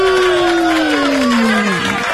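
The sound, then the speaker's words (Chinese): Loud audience applause and cheering, a dense clatter of clapping under a sustained voice that slides steadily downward in pitch above the crowd. “我们一起来给我们的阿爸天父还有佳音电台一个掌声”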